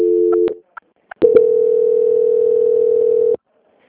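Telephone line tone during a call transfer: a steady tone cuts off, a few brief clicks follow, then a long, loud continuous tone holds before stopping abruptly.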